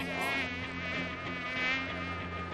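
A mosquito buzzing as a sound effect in an audio drama: a thin, high, continuous whine that wavers slightly in loudness and stays steady in pitch throughout.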